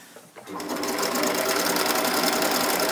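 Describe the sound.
A sewing machine stitching fabric starts up after a brief quiet moment, then runs at a fast, steady, even whir until the end.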